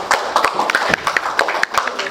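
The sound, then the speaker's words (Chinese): An audience applauds to welcome a teacher invited to speak, producing distinct individual claps in a brisk, uneven patter. “让我们用热烈的掌声欢迎朱老师。”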